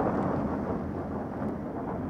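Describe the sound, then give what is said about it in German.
A heavy thunderstorm with föhn wind raging over a lake, heard as a continuous low rumbling roar with a steady, dense wash of noise and no separate thunderclaps. “Ein schweres Unwetter ist im Anzug.”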